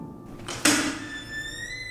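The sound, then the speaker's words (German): A single heavy metallic knock on a massive steel door in a gloomy corridor: a sharp, loud impact with a short decay, followed by a thin, sustained ringing tone that rises slightly in pitch. “Aber dann stand ich da, in diesem düsteren Flur, und klopfte an die massive Stahltür.”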